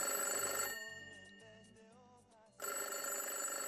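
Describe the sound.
An outgoing telephone call ringing on the line, with a few repeated low ring pulses, faint under a brighter hissing sound at the start and end.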